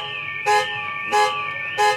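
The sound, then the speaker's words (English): Car alarm blaring among other everyday noises: steady high electronic tones with three regular bursts of harsher, louder blaring, evenly spaced and alone. “We got loads of them. Car alarms,”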